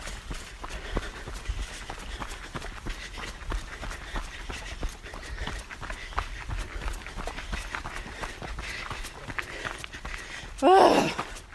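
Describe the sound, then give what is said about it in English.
Someone jogs uphill, with many steady, rhythmic footsteps and breathing running through the whole stretch. A short, louder vocal burst comes near the end. “Are we jogging here? I think, yes, this is a joggable portion. We just have to get to the top.”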